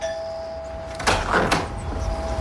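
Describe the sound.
A door with a handle and lock opens, giving two sharp clunks about half a second apart with a soft rush between them, over a steady high hum that continues throughout.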